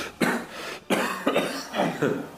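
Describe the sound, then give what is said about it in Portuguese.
Weak, breathy coughing comes from a voice right after a laugh, in a few short, hoarse bursts that rise and fade unevenly, each one soft and lacking force. “A entidade riu e logo tossiu sem forças.”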